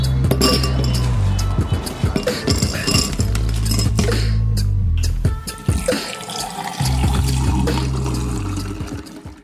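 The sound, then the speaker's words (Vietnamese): Glass and ice clink as a cup of Vietnamese iced tea is served, with many bright clinks over a steady low hum. “Cô Thôi cháu xin cốc trà đá với ạ Cháu cốc trà đá nhé”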